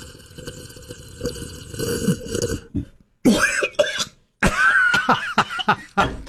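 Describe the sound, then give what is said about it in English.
A person splutters and coughs after a mouthful of coffee that is hotter than expected, making a few harsh, wet bursts with gaps of silence between them, after a steady stretch of other sound. “God, you're spitting. Excuse me. All over the place. Can't you drink your coffee?”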